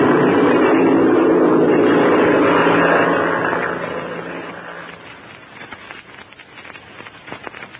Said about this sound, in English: We're going to taxi out of ways, Chuck, and then take off to the north. All clear, Chuck? All clear, Les. We're off.